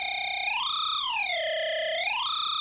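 Guitar effects pedal with an 8-step sequencer, rate turned fully up: a sustained, distorted, buzzy tone that glides smoothly up and down in pitch in a slow, continuous wobble, with no talk.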